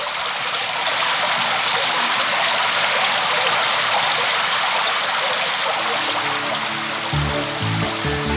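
Rain falling as a steady, dense hiss that holds level throughout without a break, with low tonal notes entering underneath near the end.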